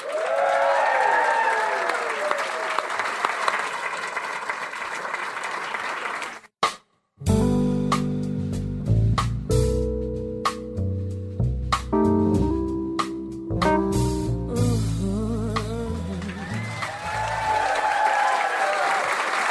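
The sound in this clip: Audience applause greets a singer coming onto the stage at a jazz concert. Dense, steady clapping runs with a voice over it, then gives way to instrumental music.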